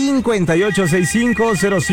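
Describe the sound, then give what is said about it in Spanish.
A telephone ringtone sounds on an incoming call line, loud warbling tones in repeated short bursts with brief gaps between them. “Que suene el teléfono. En este momento está sonando la línea número uno.”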